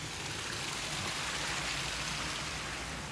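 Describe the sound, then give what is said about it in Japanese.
A stream flows near a shrine, its water rushing in a steady, dense babble that continues evenly without pauses. “最後ほんと川も流れてていいよね”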